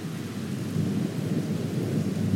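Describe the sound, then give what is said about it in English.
Low, continuous rumble of thunder over mountains during a rainstorm, with rain hissing underneath; steady and even throughout, no voices. “listening to the rumble of the thunder and the beauty of the purple streaks of lightning that light up the air”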